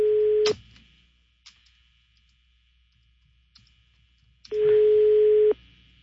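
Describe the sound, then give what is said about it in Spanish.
Ringback tone on an unanswered phone call: two steady, mid-pitched tones about a second long, separated by a long silence with a few faint clicks, the first tone cut short at the start. “No contesta. Está sonando, pero no,”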